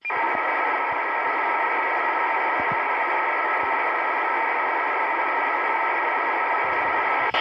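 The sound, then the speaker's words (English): Raw C4FM digital signal of Yaesu System Fusion on an FM carrier: a loud, steady, harsh buzzing hiss with a constant warbling tonal texture that runs unbroken for about seven seconds. “Yaesu System Fusion uses a digital signal format known as C4FM to modulate an FM signal. And in its raw form, it sounds like this.”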